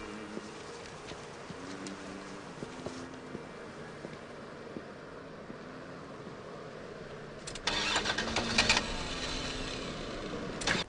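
A car engine cranks but fails to start: a faint, uneven whirring of the starter goes on for several seconds and grows louder and rougher toward the end.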